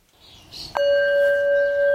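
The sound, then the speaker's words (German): A gong is struck to open the morning circle at a nature and farm kindergarten. One clear strike follows a brief soft rustle, then a bright, steady ringing tone holds evenly to the end. “Der Gong im Morgenkreis kündigt es an. Ein neuer Tag im Natur- und Ackerkindergarten beginnt.”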